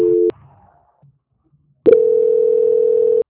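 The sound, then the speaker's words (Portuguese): Telephone line tones during a call transfer: a short steady tone, a near-silent pause with faint noise, then a longer loud, steady mid-pitched tone. “Eu vou transferir a ligação, não desliga não, tá?”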